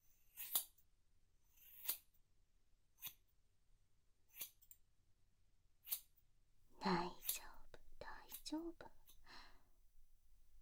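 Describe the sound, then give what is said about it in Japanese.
Scissors snip while cutting a boy's hair: five crisp, evenly spaced clicks, followed by soft whispered talk with more light snipping mixed in. “そろそろいよいよお待ちかね、髪の毛切っていくわね。”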